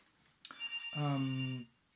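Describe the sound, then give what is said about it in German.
A telephone rings once with a steady electronic tone lasting well under a second, sounding just after a brief burst of voice. “Das ist mein Telefon. Aber da gehe ich jetzt nicht ran.”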